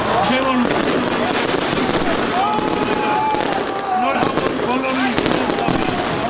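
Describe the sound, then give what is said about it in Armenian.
Fireworks bursting at a New Year's tree-lighting celebration in a town square, a dense continuous crackle and popping, loud throughout, with crowd voices and high whistling tones rising over the steady roar. “Վանաձորում 3 վարվեցին տոնածառի լույսերը, հրավառություն եղավ։”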